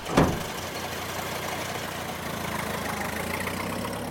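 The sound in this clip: Car engine running steadily as the vehicle drives off, a low continuous rumble with a sharp knock near the start, alone without voices.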